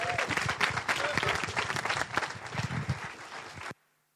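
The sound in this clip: A church audience applauds to welcome a preacher. Loud, dense clapping holds steady throughout, then cuts off abruptly near the end.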